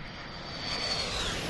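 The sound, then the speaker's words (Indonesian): An airplane flying sound effect plays as a steady, broad engine roar that swells slightly partway through and then holds at an even level. No one talks over it. “Ya, untukmu kita nak terbang ke Thailand sebentar.”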